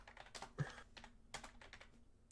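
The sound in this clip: Typing a search on a keyboard: a quick, irregular run of many soft key clicks, faint and without voices.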